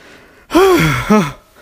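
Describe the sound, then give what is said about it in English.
Two loud, voiced gasping breaths from a person who is out of breath. The first is longer with a falling pitch and the second is shorter. “Obviously, what you probably hear is a lot of breathing and maybe a little bit of the whir of my computer fan.”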